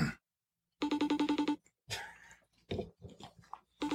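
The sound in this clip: Phone ringing on an outgoing call: a single burst of rapid, evenly pulsed trilling, followed by fainter, irregular sounds.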